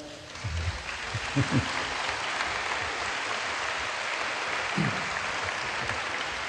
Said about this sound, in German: that's a clap for the Holy Spirit. Das ist ein Klatschen für den Heiligen Geist.